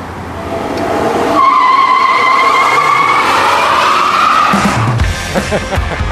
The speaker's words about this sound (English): Oh, here's the video of this burnout. Watch this thing here.